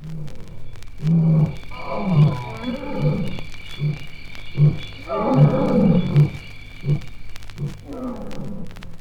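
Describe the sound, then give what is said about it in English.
A lion roars in a long series of deep, throaty grunts, heavy pulses repeating steadily and fading toward the end, with no other sound beside them. “When the lonely fish eagles call across an East African lake, or when the lion roars,”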